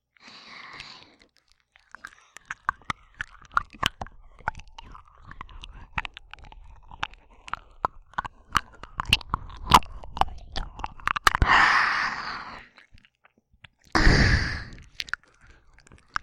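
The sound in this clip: Close-up ASMR mouth sounds imitating chewing on an ear: many wet clicks, smacks and crunchy bites in irregular bursts, with breathy sighs toward the end and no spoken words.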